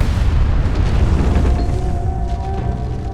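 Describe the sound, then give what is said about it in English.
Explosion outside a farmhouse on a Colorado farm, heard as a loud, sustained, deep rumbling roar that holds steady and eases slightly toward the end. “an explosion erupted outside. The sheer force rocked the house, shaking its foundations.”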